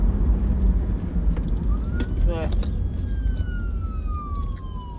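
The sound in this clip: A passing fire department vehicle's siren: a wail, then a quick series of yelping bursts and a tone gliding steadily downward, all faint beneath heavy wind rumble.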